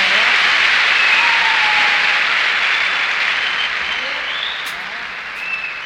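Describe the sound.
Audience applause for drummer Mel Taylor after he is introduced during a live band performance. The clapping is loud and even, then gradually thins and softens toward the end.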